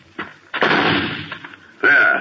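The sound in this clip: A rifle fired at pests (rats) over a back plot: a few sharp, loud blasts, one with a long ringing tail, separated by brief quiet gaps.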